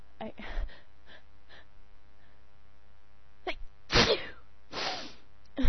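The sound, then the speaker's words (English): Sneezing from a person who keeps needing to sneeze, heard as a couple of sharp, noisy bursts near the end, after faint short voiced sounds. “No matter how much I sneeze, I feel like I have to sneeze again.”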